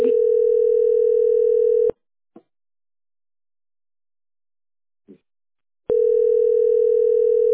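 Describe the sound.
A steady telephone dial tone sounds while a call is being placed, in two long, even stretches separated by silence, with a couple of faint clicks in the gap.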